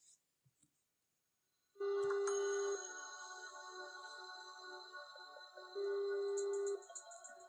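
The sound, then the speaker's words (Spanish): Ringback tone of an outgoing telephone call: two steady, buzzing tone bursts of about a second each, separated by a few seconds of continuous line noise, with brief faint clicks before the first ring. “vamos a llamar nuevamente a Eduardo Leivansen”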